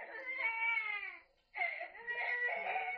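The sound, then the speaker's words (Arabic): An infant cries, the neighbours' baby boy: two long, high, wavering wails split by a short breath pause, steady and unaccompanied. “مش هنخلص ابدا من عياط ابن الجيران ده.”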